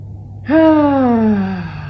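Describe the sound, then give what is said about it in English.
A single deep breath let out as a loud voiced sigh during a pause to unwind. It begins abruptly, and its tone glides steadily downward in pitch over about a second before fading out. “Just say, you know what? Let's just breathe for a second.”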